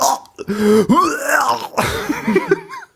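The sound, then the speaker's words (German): A voice imitates a gag reflex while a dental impression tray is pressed far back in the upper mouth: loud, strained gagging and retching bursts with choked throat noises. “Und ich habe einen extremst, wie ich jetzt auch mit Zahnseide festgestellt habe, ausgeprägten Würgereflex. Das heißt, sie hat dann oben dieses Ding reingedrückt, recht weit nach hinten. Und ich saß und dann machte nur”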